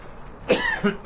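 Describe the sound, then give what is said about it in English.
A few harsh coughs in close succession: a loud first burst, then two shorter ones, all alone without talk, rough and throaty. “I have to cough again.”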